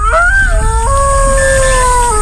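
A robot wolf with metal legs, shaggy hair, large fangs and flashing red LED eyes howls: one loud, sustained, tonal howl whose wavering pitch steps up partway through, then slowly sinks toward the end.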